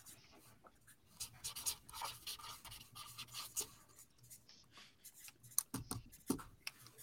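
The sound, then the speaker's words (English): People write on paper with pens or pencils while answering in a group, producing many faint, irregular scratching strokes and taps at varying speeds. “Everyone is writing down...”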